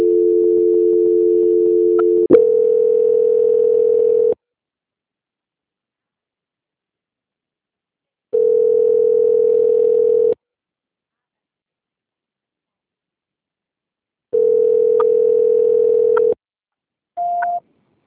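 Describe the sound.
Telephone line tones sound while a call is transferred: three steady low-pitched tones of about two seconds each, separated by silences, then a brief higher beep at the end.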